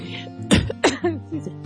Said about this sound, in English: It's just a breath. I started choking.